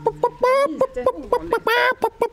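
Hens clucking in a henhouse on a summer day: many short, bright clucks and squawks in a quick, uneven rhythm, some drawn out into brief rising calls.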